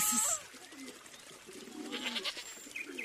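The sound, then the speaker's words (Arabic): Goat bleating: a few short, quavering cries at low volume with quiet stretches between them. “يا صوت عنزة.”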